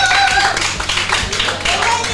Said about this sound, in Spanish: Un aplauso para él y para el Folks.